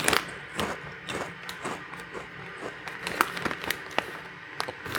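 Paprika-flavoured chips crunch as they are eaten during a blind taste test. A dense, irregular run of sharp crackling bites and crunches continues throughout, with no talk.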